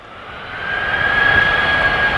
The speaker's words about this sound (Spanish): la duna, que por dentro tiene aire y capas de diferente densidad, pues actúa como una caja de resonancia de una guitarra gigante, para que te imagines. O sea que la duna se convierte en un altavoz natural.